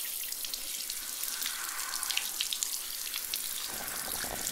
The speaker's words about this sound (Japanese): お兄ちゃんにたっぷりのお湯をかけてあげるね。